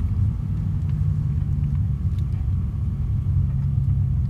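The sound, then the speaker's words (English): A car drives along the road at sunrise on a morning drive. A steady, low engine and road rumble holds evenly throughout, with no talk. “It is a Friday, beautiful Friday morning. The sun is just coming up and we are starting on our drive.”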